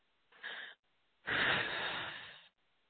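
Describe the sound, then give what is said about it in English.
A big deep breath: a short, soft intake of air, then after a brief pause a longer, louder rushing breath that fades out, with no talk. “Take a big deep breath.”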